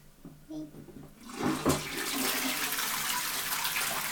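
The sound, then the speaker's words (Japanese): A toilet flushes: loud rushing, gurgling water starts after about a second and keeps pouring steadily to the end. “じゃあちょっと流しますよ。音うるさいですよ。”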